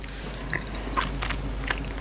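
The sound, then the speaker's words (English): Chewing and biting on a chocolate, peanut and mint protein snack made from protein powder: a few crisp crunches stand out over soft, faint, continuous mastication. “So let's now try the combined chocolate, peanut, mint.”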